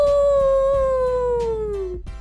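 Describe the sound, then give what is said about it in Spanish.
A wolf gives one long, sustained howl, a clear tone sliding gradually downward over about two seconds before cutting off abruptly, with a steady low rumble beneath. “El lobo aúlla. ¡Aú! Los lobeznos también. ¡Aú!”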